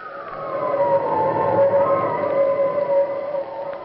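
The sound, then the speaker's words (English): Wind howls in a loud, continuous moan. A high whining tone sinks slightly at first, then holds steady over a rushing bed of noise with no voices. “Listen to that wind”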